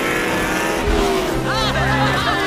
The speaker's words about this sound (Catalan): La parada más rápida que he visto nunca. Pero tiene que salir a pista delante del coche bandera.